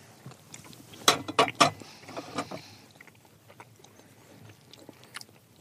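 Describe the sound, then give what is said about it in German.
Biting and chewing a small piece of cinnamon pastry made with a different flour and slightly mushy: three sharp, crisp bites in quick succession, followed by softer, quieter chewing noises. “ich nehme hier schon mal ein kleines Stückchen runter. Das, die sieht ganz neutral aus, da ist nichts drauf, aber wir gucken mal, wie sie schmeckt.”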